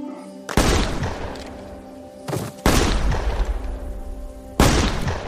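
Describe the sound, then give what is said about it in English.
Gunshots ring out: a few loud, sharp blasts, each trailing off into a long, rough, noisy decay, with uneven gaps between them. “And then she shoots him.”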